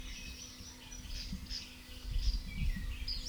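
A Western Flycatcher calls with faint, short, high chirps repeated several times over a low, steady background hiss.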